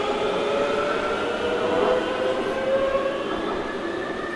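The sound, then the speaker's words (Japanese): A subway train on the blue line runs smoothly and quietly, giving a steady, even rumble with faint whining tones held above a continuous low hum throughout. “これ静かでしょ。めちゃめちゃ静かですよこの地下鉄、”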